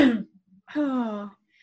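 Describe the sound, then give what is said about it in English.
A person choking on their own breath: a short harsh sputtering gasp, a brief pause, then a longer strained voiced cough-groan that fades out. “You know, when you like breathe in and then you like choke on your own air. Yeah, that's what happened.”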